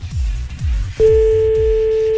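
A telephone call signal sounds as a call is placed: one steady mid-pitched tone starts about halfway through and holds to the end. A rhythmic low beat pulses beneath it throughout.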